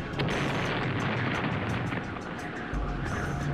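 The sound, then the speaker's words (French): Grenade explosion in a video game: a dense, roaring wall of blast noise and rumble that stays loud and steady for the whole clip, with no clear gap or separate bangs. “Trois gardes, trois explosifs, et j'ai une grenade sur moi. Bon ben, le choix est fait.”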